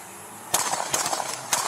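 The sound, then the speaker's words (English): Handgun shots ring out in quick succession during an ambush on police officers in Fargo: a rapid, irregular series of sharp, loud cracks over a steady background hiss. “I want to play it again because I want you to hear the succession of the rounds and how quickly it happened.”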